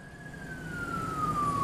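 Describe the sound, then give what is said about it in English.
Traffic at a chaotic intersection in Maracaibo, Venezuela, during a power outage with the traffic lights out: a steady low rumble of vehicles under a single sustained siren-like tone that slowly slides lower. “This is an intersection in Maracaibo, and it's utter chaos because there's a power outage and the traffic lights don't work.”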